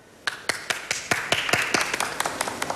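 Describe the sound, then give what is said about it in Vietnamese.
Audience applause at a meeting, heard as sparse, crisp hand claps that start few and spaced, then grow steadily denser and overlap, fairly faint with no speech. “Đề nghị chúng ta nhiệt liệt hoan nghênh.”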